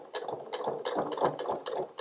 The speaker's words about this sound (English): with the needle in the down position, um, sometimes might need to lift the presser foot up and just push that bulky seam under the presser foot a bit just to try and encourage it